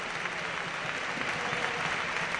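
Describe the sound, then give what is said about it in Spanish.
A stadium crowd gives a football player a standing ovation as he is substituted off, a continuous, thick wash of clapping with no individual claps standing out. “Ovación cerrada para Gerard.”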